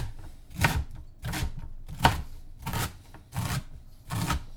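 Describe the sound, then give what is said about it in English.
A knife roughly chops quartered sprouts on a board in a series of several steady, evenly spaced dull strokes, crisp and moderately loud, with no talking. “Now we carefully quarter each sprout. You're going to gather them in the pile. And you roughly chop them.”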